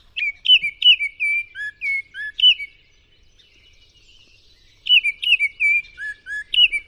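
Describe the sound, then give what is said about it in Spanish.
Whistled song of a Baltimore oriole (Icterus galbula): clear, fluty notes in two bursts of several quick phrases, with a pause of about two seconds between them. The song is fairly loud and heard alone, with no talk. “El ave de la semana, chorcha norteña.”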